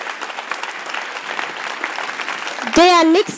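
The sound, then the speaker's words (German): Audience applause at a poetry slam: sustained, even clapping, broken off near the end by a brief loud voice. “Riesenapplaus bitte nochmal für Svenja.”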